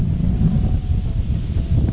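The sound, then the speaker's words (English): Wind blows across the microphone as a steady, low, rumbling buffet that keeps going without a break for the full two seconds, with no voices over it. “pray this wind stops is the first thing.”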